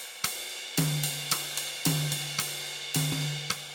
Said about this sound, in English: He's up on the ride cymbal now, and he's doing a pretty standard kind of a groove that you'll hear a lot that combines a cross stick with a rack tom hit along with the ride cymbal with the right hand. And it kind of sounds like this.